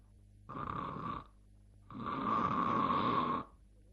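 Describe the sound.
A storyteller's voice imitates Zhang Zuolin snoring as he falls asleep. It gives two rasping, buzzing snores, and the second is longer and louder than the first, with quiet pauses around them.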